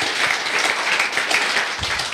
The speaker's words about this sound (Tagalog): Palakpakan natin ang ating Panginoon.